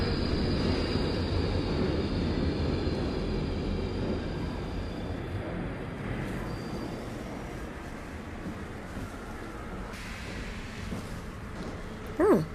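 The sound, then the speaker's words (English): An underground metro train in London arrives with a broad, steady rumble of wheels and carriages that eases slightly over time, and a brief high squeal near the end. “Hang on, I think that's our train coming.”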